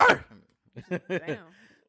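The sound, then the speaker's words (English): A man's voice imitating a dog's barking in a rap-style bark: a harsh, rasping burst followed by a few short, voiced bark-like yelps in quick succession, moderately loud, with no other sounds around them. “That was a real like dog.”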